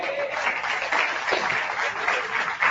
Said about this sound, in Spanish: ¿Cuánto le dan un aplauso a él?